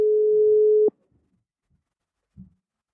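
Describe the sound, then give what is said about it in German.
A telephone tone sounds during an outgoing call: a single steady, mid-pitched beep lasting just under a second. It cuts off into silence, broken later by one faint, brief click. “werden wir jetzt einfach mal die Autorin anrufen”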